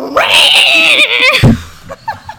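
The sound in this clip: A human voice imitates a cat during live-action roleplay, making a long, loud, wavering yowl that breaks off with a sudden drop. A few short, quieter vocal sounds follow.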